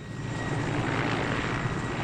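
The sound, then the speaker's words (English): Aging Russian-made helicopter taking off with pregnant women aboard, bound for a hospital in Misrata: a loud, steady, dense engine and rotor roar throughout, with no voices. “An aging Russian-made helicopter takes off with the pregnant women.”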